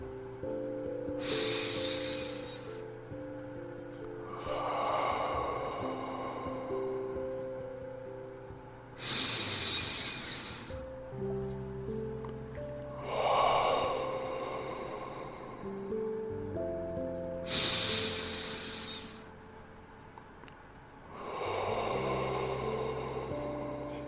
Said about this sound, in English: Breathe in through your nose and breathe out the mouth.